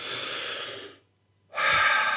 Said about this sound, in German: probierst du einfach jetzt mal aus, atme mal ganz tief ein, so.